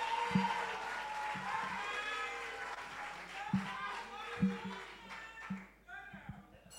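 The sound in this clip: Audience applause at a senior high school debate welcomes the principal speaker: steady, fairly faint clapping with crowd voices mixed in throughout.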